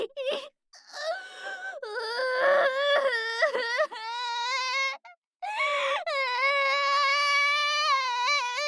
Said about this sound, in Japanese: 泣き出しちゃった。